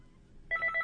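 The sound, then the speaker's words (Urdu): A telephone rings with an incoming call to a radio studio in Islamabad: after a quiet low hum, a faint electronic ring begins as a series of short repeated high pulses in an even rhythm. “ابھی ہمیں ایک call receive ہو رہی ہے۔”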